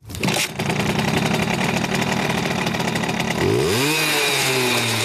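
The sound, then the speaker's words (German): A cult Simson moped engine buzzes loudly and steadily, a raspy high-revving drone that climbs in pitch near the end before levelling off, with no voices. “So hört sich das Kultmoped an.”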